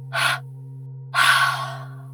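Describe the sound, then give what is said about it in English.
Breath is pushed out through the mouth in two exhales: a short puff, then a longer, fuller breath out that fades away, with a steady low hum underneath. “And out of your mouth in two exhales.”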